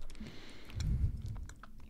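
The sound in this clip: Crunchy, wet chewing of pomegranate seeds during a taste test, with a steady run of biting and mashing sounds that grows louder midway and continues to the end.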